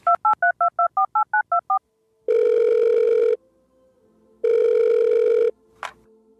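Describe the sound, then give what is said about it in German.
Telephone call being placed: a quick run of clear keypad dialing tones, then two long, loud buzzing ring tones separated by a pause, ending with a short click. “Achso, er ruft mich an, meinetwegen.”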